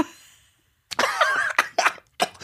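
Coughing fit from someone who got coffee up the nose: one long harsh rasping cough, then a few shorter sharp coughs separated by brief gaps.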